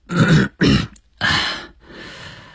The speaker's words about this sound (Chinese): 反应比较快，清了清嗓子说